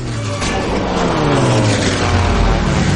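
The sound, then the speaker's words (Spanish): Light aircraft engine droning loudly and steadily as the plane manoeuvres, a dense propeller roar whose low engine tone shifts slightly in pitch across the moment. “La avioneta suelta el cable y el jefe maniobra para pasar entre las dos estructuras.”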